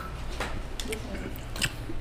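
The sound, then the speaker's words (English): Someone bites into and chews a small piece of mango fruit, making a few faint, moist crunches and squishy chewing sounds. “Like, oh, okay, I'm going to taste it. Get a little piece of fruit.”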